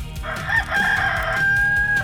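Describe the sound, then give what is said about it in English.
A rooster crows once in a long, sustained, strident call that holds steady over a low rhythmic background. “Immediately, a rooster crowed.”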